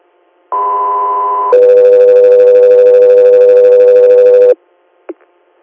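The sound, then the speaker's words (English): Two-tone radio dispatch alert for an inter-hospital air medical crew: a steady higher tone for about a second, then a longer, lower steady tone for about three seconds, followed by a brief blip after a pause. “standby for tones.”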